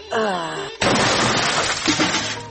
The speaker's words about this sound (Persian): دروازه رو خواهی هیچ واز کده نمیتونه. بیا که دروازه رو بشکنانیم.